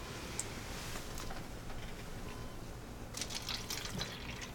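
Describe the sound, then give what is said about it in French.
Water is poured into a glass for a patient recovering from a hip fracture, a faint, steady trickling hiss that runs throughout. “Ah, je vais vous verser un verre d'eau.”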